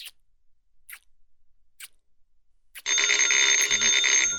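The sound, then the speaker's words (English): A few soft, evenly spaced ticks, then a telephone bell begins ringing loudly and continuously, keeping a steady, brassy jangle through to the end with no voices. “The phone's ringing. The phone's ringing. Oh, whoever it is won't give up.”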